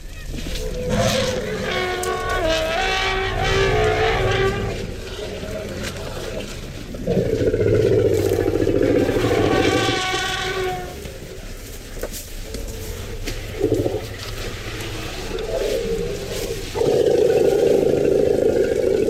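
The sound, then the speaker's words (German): An elephant herd greeting one another in South Africa, giving loud, honking, trumpet-like calls in a few overlapping bursts over deep, rumbling low tones that continue throughout. “Das ist eine Aufnahme von Südafrika und es ist eine Begrüßung. Eine Begrüßung von Elefanten,”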